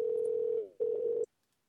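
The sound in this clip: Telephone ringback tone on an outgoing call just before voicemail answers: a steady mid-pitched tone that briefly dips, resumes, then cuts off into silence.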